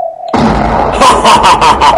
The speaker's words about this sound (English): Smuggler's victory. Enemy Stargun has been destroyed.